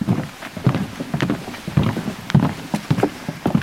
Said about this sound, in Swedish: Vi går på en halv meter bred träspång som är utlagd över den mycket blöta sankmarken mitt i den lätt höstfärgade skogen vid den polska gränsbyn Jawowka.